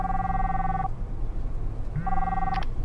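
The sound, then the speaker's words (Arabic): A phone rings with an incoming call from a colleague: two bright electronic tone bursts separated by a pause, over a steady low background hum. “محمد زميلي جالس اتصل”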